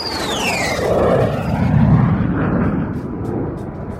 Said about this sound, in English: Episode 69 of the Pilot Podcast takes off now.